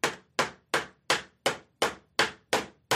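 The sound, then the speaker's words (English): A hammer strikes a nail into a church door in a slow, even rhythm of about nine sharp blows. Each hit snaps loudly and then fades quickly before the next, with no voices and no other sounds. “here's Luther nailing his 95 theses”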